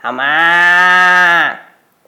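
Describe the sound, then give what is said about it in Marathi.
A buffalo tethered beside a farm field lows with one loud, long, steady moo lasting over a second, heard alone, then fading away. “शेताच्या बाजूला बांधलेल्या बद्रीच्या इमानदार म्हैशी देखील हंबरल्या”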